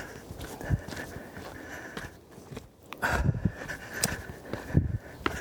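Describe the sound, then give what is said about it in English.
Footsteps of a person running outdoors, a loose series of soft thuds and scuffs that grows busier and louder after the midpoint. “Just running, you know. I've gone a little over a mile and a half right now.”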